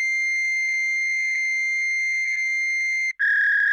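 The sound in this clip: A fax machine sends its transmission tone, a loud, steady, high electronic whine held for about three seconds, then a brief break before a slightly lower tone picks up.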